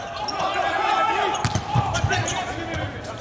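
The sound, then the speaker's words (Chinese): A volleyball serve struck by Wang Bin during a match with the Chinese team: a few sharp, hard ball impacts cut through a steady wash of crowd noise and talking. “看看王斌的发球，哇，好发球！”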